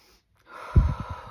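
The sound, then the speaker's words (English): A deep breath drawn in by a person, one long rough, airy inhale with a faintly snorting texture that swells after a short silence, fairly loud and alone. “Another great tool is honestly, breathing,”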